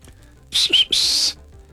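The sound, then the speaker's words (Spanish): A whistled greeting sent from a working crowd to their bosses: three shrill, high whistle bursts in quick succession, the last held longest, standing out loudly over a quiet background. “A todos esos patrones les mandamos un saludo de chiflidito, de parte de toda la porra trabajadora.”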